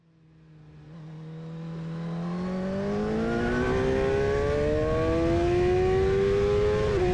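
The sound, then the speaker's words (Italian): A car engine accelerates hard along an open, straight asphalt road through uncultivated fields, its tone climbing steadily in pitch as it speeds past highway limits, growing louder and then holding a strong, sustained roar with no voices. “Asfalto, strada libera, rettilineo. Intorno campi incolti, aria fresca. Accelera. 100, 120, 130, ha già superato i limiti consentiti.”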